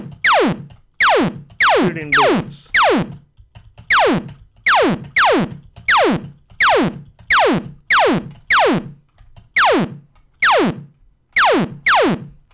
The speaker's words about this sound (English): There's our ship, our enemy. And now we're shooting.